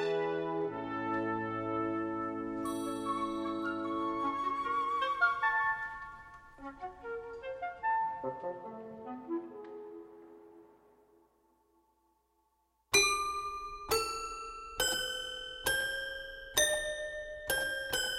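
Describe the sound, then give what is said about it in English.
Toy piano playing a composed suite: bright, tinkling notes ring and overlap, thin out and fade nearly to silence, then a run of sharp, evenly spaced struck notes follows, each ringing briefly before the next. “You're listening to A Suite for Toy Piano by the American composer John Cage.”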